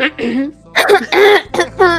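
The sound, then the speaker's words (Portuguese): Throat clearing before singing: a few rough, raspy bursts of harsh vocal noise with short pauses between them, loud and close. “vamos limpar a garganta primeiro”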